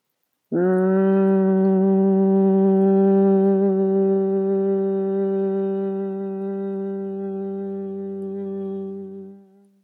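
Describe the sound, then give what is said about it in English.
A human voice imitates a buzzing bee in a single long Brahmari breathing hum made with closed lips: a steady, low, richly overtoned drone that holds for about nine seconds, then fades out at the end. “you put the lips together, block the ears, close the eyes, and you make a humming bee, buzzing bee sound.”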